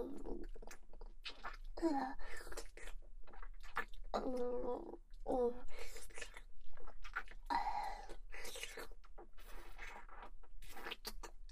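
Crisp chewing and biting of vinegared food: many crunchy bites in an uneven rhythm, fairly quiet, with a few soft murmured mouth sounds between them.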